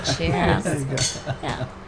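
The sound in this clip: Glasses clink together in a toast, producing bright, brief chimes mixed in with overlapping voices and table clatter.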